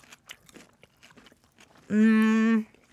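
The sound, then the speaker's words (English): Crunchy chewing of raw radishes, a run of small crisp bites and mouth noises, then a short hummed vocal 'mm' sound from the eater. “I'll try one there. It's quite full on, actually, eating all four radishes in one go.”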